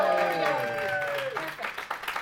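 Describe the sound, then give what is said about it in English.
Brief audience applause at a live comics read-through show: a voice speaks first, then a short patter of scattered clapping rises near the end. “And welcome to the great Dante Read Through, live. Applause or something.”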